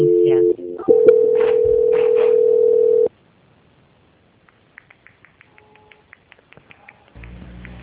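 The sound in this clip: A telephone line tone during a call transfer: a brief mixed tone, then a steady, loud, level hum for about two seconds, then near silence broken by faint clicks.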